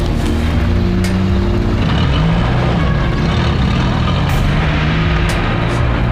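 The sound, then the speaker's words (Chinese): A motor vehicle approaching, heard as a loud, steady low engine rumble with broad road noise throughout, and no voices. “有车来了。”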